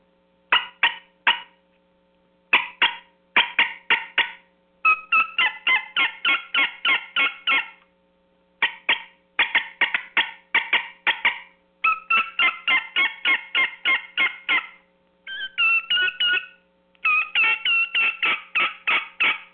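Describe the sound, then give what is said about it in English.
Turkey yelps made on a tube call, given in several quick runs of sharp, raspy, evenly spaced notes, with short pauses between runs and no talking. “do a couple yelps so the guys can hear some of the sounds on a tube call”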